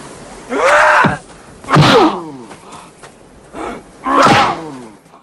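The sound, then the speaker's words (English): Punches land on a man's face during a fight: three heavy thudding blows, each mixed with a pained grunt or groan, plus a softer hit between the second and third. “Fender punches him. Gibson summons up the energy for another spin kick. Fender hits him hard in the face.”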